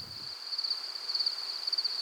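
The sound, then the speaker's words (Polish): Field crickets chirping at night in a field: a faint, steady, high-pitched trill with fine rapid pulsing that carries on without a break. “za to świerszcze polne. Będą jeszcze ćwierkać całą noc.”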